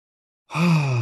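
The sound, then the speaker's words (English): A deep, audible breath drawn in during a guided breathing exercise. It starts abruptly after about half a second of silence, then holds as a steady, breathy sound with a low voiced hum through to the end. “Inhale again.”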